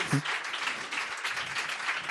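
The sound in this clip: An audience applauds a singer after a song: continuous, even clapping from many hands, moderately loud and unbroken for its short length.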